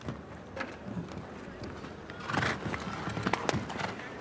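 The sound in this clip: A horse gallops over a show jumping course with faint, rhythmic hoofbeats and occasional sharper knocks under people talking.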